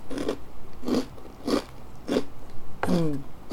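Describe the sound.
Crisp crunches of someone biting into a crunchy fried corn snack: four sharp, evenly spaced bites, then a short voiced sound at the end.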